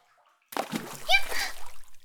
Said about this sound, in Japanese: もう、なんでわざわざ近くに飛び込むのよ。溺れるかと思ったじゃないの。